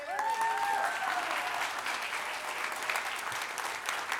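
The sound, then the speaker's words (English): Audience applause as a woman is invited on stage: dense, steady clapping from many hands fills the whole stretch, with a voice heard over the opening moments. “You can give her a hand.”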